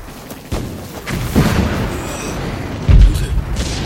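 A few heavy explosions boom across a Red Army battlefield in a war film, deep low thuds over a constant rumble, the loudest burst arriving near the end.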